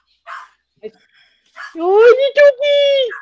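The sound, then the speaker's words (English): A small chihuahua yaps and whines: a few short, sharp yips, then longer, high, tonal whining cries close together, loud and clear. “Aw, little doggy. Brother's not my dog. That's usually when he always barks. Yeah, well, yours is a freaking mean spirited chihuahua.”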